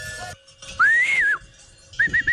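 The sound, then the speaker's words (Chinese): A cattle herder whistles to signal his dog: one long, clear whistle that rises and then falls, followed after a pause by three short, quick chirps at a steady pitch. “只见他不慌不忙地吹起了口哨。”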